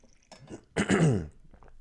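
A man clears his throat and coughs in a few short, rough bursts. The strongest burst falls in the middle, with fainter throaty sounds before and after, all fairly quiet and without speech.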